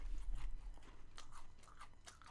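Faint, crisp chewing of crunchy jalapeno chips, with many irregular crunches and bites overlapping in a steady stream and no talking.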